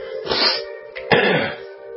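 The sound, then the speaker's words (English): Harsh, throaty coughing comes in a few bursts across two seconds, loud and abrupt, with short pauses between them and no talk. “I'm sorry, I'm keep coughing in your face here.”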